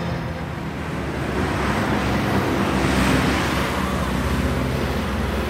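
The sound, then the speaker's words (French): A vehicle passes along a street, heard as a steady, broad road rumble that swells gently midway and then eases, with no voices. “ce que vous venez d'entendre là, c'est de la radio. C'est du son, un véhicule qui passe, on est dans une rue”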